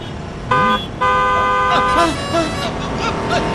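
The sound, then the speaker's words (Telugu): Car horn honking: one short blast, then a longer sustained honk with a bright, buzzy tone. Voices talk over the end. “మీరే కంగారుగా నడుస్తున్నారు, horn కొట్టినా మీకు వినిపించడం లేదు.”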